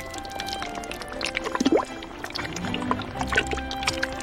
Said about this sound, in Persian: بعدش هم مایه رو اضافه میکنم، گوجه فرنگی، پیاز داغمونو میریزیم.